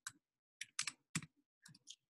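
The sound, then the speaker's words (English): Quiet typing on a computer keyboard, with short clusters of key clicks separated by brief pauses. “I need two hands to type.”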